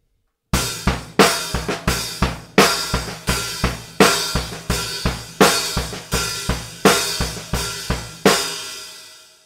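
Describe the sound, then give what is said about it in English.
A rock drum beat played slowly on a kit, with a bass drum and snare backbeat on beats two and four and soft ghost notes in between. Many sharp hits fall in a steady, loud pattern, and the last crash rings out and fades. “On the snare drum, I'm playing beats 2 and 4, but I'm also playing a ghost note in between one of the bass drum notes.”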